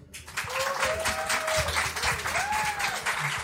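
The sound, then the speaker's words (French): Audience applause greets a group of Lyon-based creators introduced on stage, dense clapping that holds at a strong, steady level throughout. “Mesdames et messieurs, je vous demande s'il vous plaît un tonnerre d'applaudissements pour Brian Moore,”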